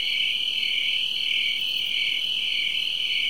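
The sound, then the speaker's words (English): Loud insect buzzing in summer countryside: a continuous, high-pitched droning rasp that holds steady throughout, with slight slow pulsing and no pauses. “Even out here in the countryside where I live, there are a lot of creatures making a lot of noise. Particularly that one insect you just heard making a racket.”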